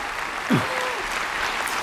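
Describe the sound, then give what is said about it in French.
Audience applause after a pianist's performance of Chopin's Waltz in A-flat major, Op. 64, a fairly soft but sustained, even patter of many hands clapping. “Largement applaudi”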